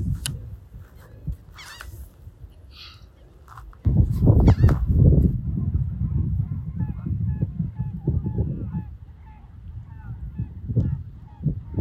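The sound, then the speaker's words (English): Geese honk repeatedly in many harsh, nasal calls, some loud and some fainter. A burst of heavy, rough noise swells in the middle of the stretch, and quieter honks continue afterward. “What does a goose sound like?”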